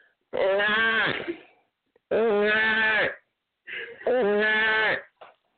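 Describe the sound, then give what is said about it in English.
A person's voice imitates a giraffe's mating-season call with three long, bleating, nasal cries. The cries are loud and wavering, separated by pauses, with a brief extra squeak at the end. “And this is the sound of a giraffe in its mating season.”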